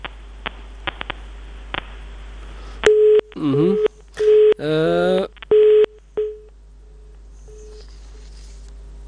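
Telephone dialing tones and beeps on a radio phone-in line: a few short bursts of electronic tone, one warbling, separated by steady single beeps, with faint clicks before and a quiet line hiss after.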